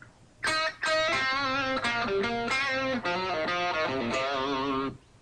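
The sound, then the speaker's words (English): A bluesy electric guitar lick in the key of C: a quick run of ringing, sustained notes with a lightly overdriven tone, played alone with no voices. “Here's the lick, key of C. I'm going to show you how to play it bluesy style, and then I'm going to show you how to rock it out a little bit, just with a couple minor alterations. Ready? Here we go. Sounds like this.”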